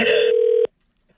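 A short burst of telephone ring tone on a call, a steady electronic tone lasting just over half a second before cutting off abruptly into silence.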